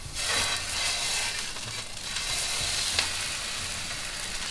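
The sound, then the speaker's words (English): A pork chop frying in hot oil over a gas flame gives a steady, dense sizzle that holds at an even level throughout with no break, and no one speaks. “And now we warm up the oil. Okay, let's start with the pork chop.”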